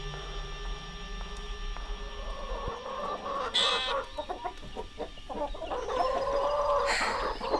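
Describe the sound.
Chickens cluck repeatedly, a few loud bursts of calls standing out over a steady murmur of the flock, with no talk.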